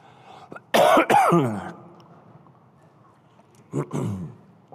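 Coughing after something went down the wrong pipe: a pair of loud, harsh coughs in quick succession, then quiet, then a second, smaller pair of coughs.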